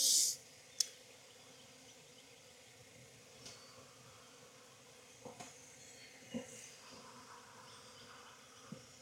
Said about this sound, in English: I've got a strong hive with no queen. I've got queens that should be mated today. So this hive is going to need a little bit of reestablishment with a new queen.